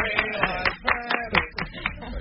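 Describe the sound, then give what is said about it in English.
Radio show hosts applaud themselves: a few hands clap in a quick, fairly regular beat, mixed with voiced sounds, at a moderate level. “You'll notice, honey, on this show you applaud yourself, but you don't get any.”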